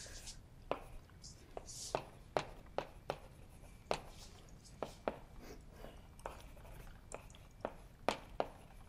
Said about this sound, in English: So I'll write that as well.